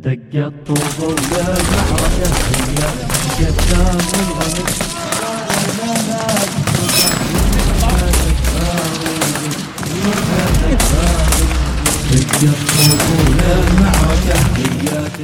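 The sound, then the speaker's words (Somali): Rapid bursts of gunfire in a battle between fighters and militia, many shots crackling in quick succession. They sit under a speaking voice and a low droning backdrop throughout. “ku bilaabanay dagaal toos ah oo ciidamada mujaahidiinta ay ku qaadayaan fariisinka murtadeenta waxaana hal mar hawada is qabsanaysa rasaasta ay sweedaarsanayaan mujaahidiinta iyo maleeshiyaadka ridada”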